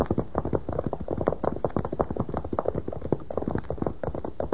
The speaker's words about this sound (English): Look at that horse, it's saddled. But what's happened to the rider?